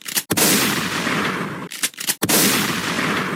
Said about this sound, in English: So she ran to the corner and grabbed a shotgun and shot them both in the face.